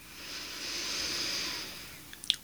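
A slow breath drawn in during a guided breathing exercise: one long, soft, airy hiss that swells and fades, followed by a few faint clicks at the end.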